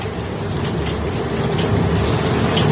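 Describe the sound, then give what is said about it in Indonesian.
Heavy rain pours down in a dense, even hiss that holds steady throughout, with no voices. “Langit sepertinya tidak memihak pada kami, seolah-olah hujan ini menghalangi perjalanan kami.”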